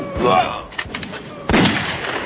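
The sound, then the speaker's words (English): A sudden burst of enemy gunfire in a rifle fight among boulders: a few sharp, loud cracks close together within a couple of seconds. “there's a sudden burst of enemy gunfire and a bullet hits Lee”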